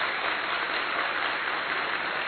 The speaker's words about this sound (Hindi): आप सब खड़े होकर के एक बार ताली बजा देंगे, जो नींद में है वो भी खड़े हो जाइए और जोर से ताली बजा दीजिए, और जोर से, और जोर से।